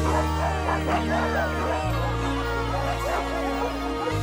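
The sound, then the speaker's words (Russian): Dogs barking, yipping and whining in repeated overlapping bursts over a steady low droning hum, the calls loud and continuous throughout. “удивленно прислушивается к лаю собак.”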